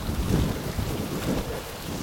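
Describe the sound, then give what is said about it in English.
Wind blowing through woodland near Stoke-on-Trent on a breezy, unusually warm October evening: a continuous low rushing roar with gusty swells and buffeting against the microphone. No voices. “Quite breezy tonight on this unseasonably warm day.”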